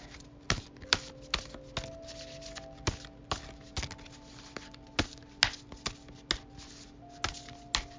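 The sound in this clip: A deck of cards being shuffled by hand, a long run of crisp, irregular clicks and snaps that come every fraction of a second at varying loudness, with no voices.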